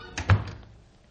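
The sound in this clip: A door shuts as someone leaves, with a soft knock and then a dull, heavy thunk close behind it, fading quickly into quiet.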